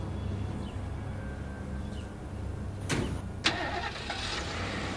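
A pickup truck engine starts and runs with a steady low rumble throughout, with two sharp clunks near the middle.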